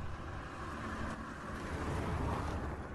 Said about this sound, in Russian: Я отпустил сцепление и нажал на газ. Машина медленно покатилась вперед.